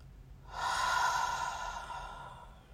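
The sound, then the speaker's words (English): A slow breath drawn in through the nose and then released out through the mouth, heard alone as one long, steady, airy rush lasting about two seconds. “So go ahead and breathe in through your nose and just hold it for a second. And then release through your mouth.”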